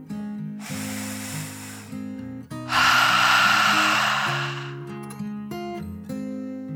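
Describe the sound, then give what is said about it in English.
A deep breath in and out: a drawn, airy inhale, then a longer and louder hissing exhale, both over soft sustained background music. “Then she took another deep dragon breath in and out.”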